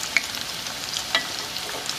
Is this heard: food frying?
yes